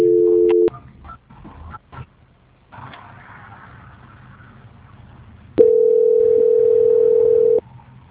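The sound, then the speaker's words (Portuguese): Telephone tones during a call transfer. A short, steady two-note tone leads into faint clicks and line hiss, then a louder single steady tone holds for about two seconds before it cuts off. “Eu vou transferir a ligação, tá? Só um minutinho.”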